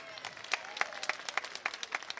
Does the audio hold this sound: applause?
yes